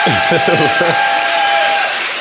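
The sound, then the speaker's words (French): An audience applauds and cheers, a dense, steady wash of crowd noise that fills the whole stretch, with a voice speaking briefly at the start. “Les autorités de l'ISP méritent pour cela de sincères félicitations. Je vous demande de les applaudir.”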